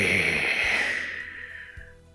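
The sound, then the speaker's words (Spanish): A person yawning: a long, breathy exhalation with a voiced tone that slowly sinks and fades away over about two seconds, with no talk. “Otra vez bostezando.”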